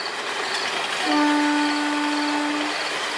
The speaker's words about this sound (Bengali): নীরবতা, শুধু দূরে কোথাও ট্রেনের হুইসেলের শব্দ।